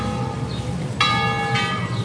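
A church bell tolls a funeral knell: two loud, clear metallic strikes about half a second apart, each blooming into a bright, ringing tone over a sustained hum from earlier ringing.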